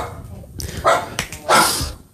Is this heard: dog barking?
yes